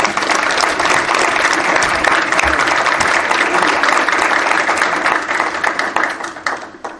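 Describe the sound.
Audience applause greeting a high school senior speaker, sustained, dense clapping that stays full and even before thinning out and fading in the final second or two.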